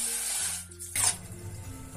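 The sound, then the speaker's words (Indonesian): Water is poured into a cooking pot, 300 ml measured out for a honey and ginger drink. A steady splashing hiss swells into a brief louder gush partway through, then settles back to a gentle stream. “Pertama-tama kita masukkan airnya.”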